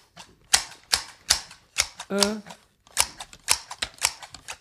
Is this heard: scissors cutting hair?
yes